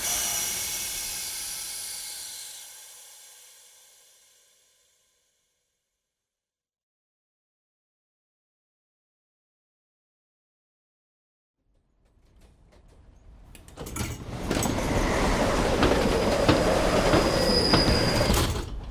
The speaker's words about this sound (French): Le train marque un arrêt.